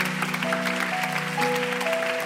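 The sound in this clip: A crowd claps hands during a church worship service, a dense, continuous patter of many claps with sustained musical tones held underneath.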